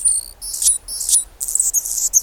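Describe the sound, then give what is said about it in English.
A male Anna's hummingbird sings on a chilly February morning near Seattle, giving very high, thin, scratchy and buzzy squeaks in short repeated bursts, loud and alone. “And not just any bird. It's a hummingbird, a male Anna's hummingbird, whose throat and crown flash iridescent rose.”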